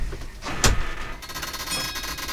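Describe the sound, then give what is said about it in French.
Doors of an experimental, silent driverless shuttle open: a sharp click, then a steady hissing whir with faint tonal hum that carries on to the end, all fairly quiet. “Les portes s'ouvrent.”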